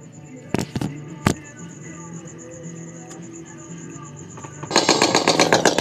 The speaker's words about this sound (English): That was a warning shot, motherfucking traitor and thief.